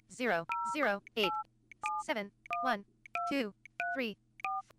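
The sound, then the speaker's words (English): Keypad tones from a phone's dial pad as numbers are punched in quickly: several short two-note beeps in a brisk, slightly uneven run, alternating with a talking voice. “Just showing you that entering numbers is very, very fast.”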